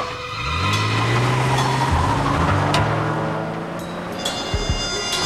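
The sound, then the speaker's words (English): A car backs out of a driveway with a steady, low engine drone that swells briefly at the start and then holds, with a few faint clicks near the end. “vehicle backs out of the driveway.”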